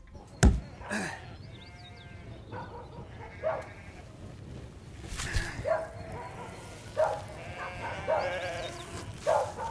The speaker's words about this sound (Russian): режет барана